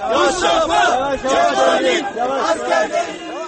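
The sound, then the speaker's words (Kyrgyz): Demonstrators outside a courthouse in Silivri, Turkey, shout loud chanted phrases in unison, a mass of raised voices rising and falling in rhythmic bursts with brief dips between them. “Биз Мустафа Кемал Ататүрктүн аскерлерибиз. Деп кыйкырып жатышты сот имараты алдына чогулган демонстранттар.”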